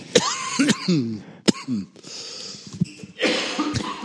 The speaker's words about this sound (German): Pardon. Jetzt hat mich der Husten.